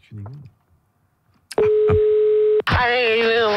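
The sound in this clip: Telephone line sounds on a call to a radio contest listener: a short voice, a pause, then a steady single-pitched tone for about a second, followed by a voice on the line.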